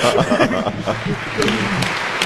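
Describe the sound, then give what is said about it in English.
Audience applause for an event crew: a steady, dense patter of many hands that runs the whole way through, with voices talking over it. “No, seriously, we should applaud the crew.”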